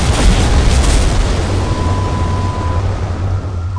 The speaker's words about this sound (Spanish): Miguelito, ya no juegues con tu bomba sin avisarnos antes de...